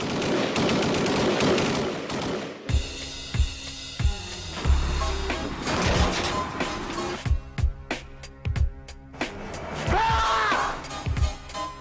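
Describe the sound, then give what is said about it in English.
Film trailer audio for the Banksy documentary Exit Through the Gift Shop: sustained music punctuated by many sharp gunfire-like bursts and crashes, with voices speaking at times. “Let's go ahead and play the trailer right now. It's a really interesting trailer. Even better if you watch it, but you'll have to just content yourself with the sound. So here's the trailer for Exit Through the Gift Shop, a Banksy film.”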